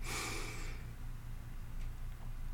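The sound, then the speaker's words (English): A single deep inhale through the nose, a brief airy rush at the very start that quickly fades into near silence. “Take a deep inhale, fill up.”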